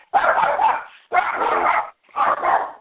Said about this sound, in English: somebody got a dog